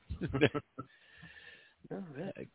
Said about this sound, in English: Goat squealing like a scared goat.